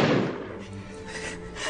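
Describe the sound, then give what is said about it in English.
A single Beretta pistol shot: a loud, sharp blast at the very start that dies away within about half a second into a low rumbling tail. “That was a loud gun.”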